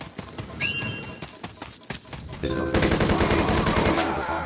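Gunfire from shooting in a video game: rapid sharp shots crackle in scattered bursts, then give way to a loud, dense stretch of sustained automatic fire that continues to the end.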